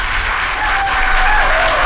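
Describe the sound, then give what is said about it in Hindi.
Applause welcoming a guest: a full, continuous roar of many hands clapping, steady and loud throughout, with a faint low hum underneath and no voices. “तो उनको तालियों की गूंज में खुश आमदीद”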